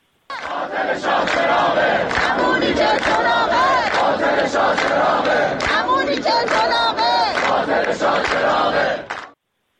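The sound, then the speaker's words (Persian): Students of the University of Tehran engineering faculty chant protest slogans in unison, a loud crowd of voices shouting rhythmic repeated phrases without pause until an abrupt stop. “دانشجویان دانشکده فنی دانشگاه تهران هم از جمله با سر دادن شعار شاه چراغ رکس دیگه است، اینم یه نیرنگ دیگه است، به تجمعات اعتراضی خودشون ادامه دادن. صدای دانشجویان دانشکده فنی تهران رو هم بشنوید.”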